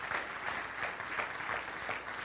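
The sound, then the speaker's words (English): An audience claps for the support staff of a boys' wilderness camp, a steady, dense wash of many hands lasting the whole moment at a moderate, fairly even level. “would you go ahead stand if you're in some kind of role at Gator Wilderness? Okay, and clap for them.”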